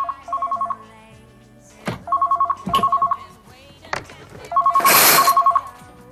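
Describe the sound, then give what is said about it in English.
A mobile phone rings in three loud trilling bursts, with sharp clicks and knocks between them and a burst of noise during the last ring. “His phone starts to ring.”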